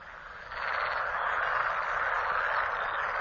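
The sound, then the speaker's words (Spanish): A dense chorus of male frogs croaks in great numbers during mating in a flowering wetland. The buzzing mass of calls swells within the first half second, then holds steady and loud, with no talk. “El croar de las ranas macho resuena por toda la zona. En inmensas cantidades han comenzado a aparearse.”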